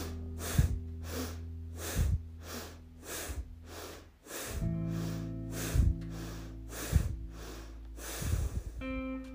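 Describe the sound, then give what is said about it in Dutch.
Rapid bhastrika breathing in a seated yoga pose, one leg stretched and the other bent and held, makes a fast, rhythmic series of loud, forceful rushes of air, with soft sustained tones underneath. “Doe nu in deze houding 7 snelle bastrika's.”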